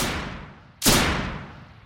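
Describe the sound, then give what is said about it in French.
A single sharp gunshot rings out during an assassination attempt on Jacques Chirac. The abrupt crack rises from a low background hum and then decays slowly into a lingering tail. “Et il tire”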